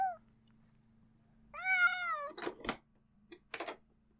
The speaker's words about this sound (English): You're letting all the Meowth get some fresh air? Aww, see ya, cuties.